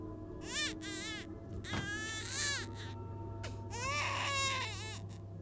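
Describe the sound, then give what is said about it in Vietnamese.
An infant cries in shrill, wavering wails echoing down a dark corridor. There are several separate bursts with pauses between them over a low steady hum, all faint and without other voices. “Đó tựa như là tiếng khóc của trẻ con. Tiếng khóc ngằn ngặt vang lên trong hành lang tối, nghe đến rùng mình rợn người.”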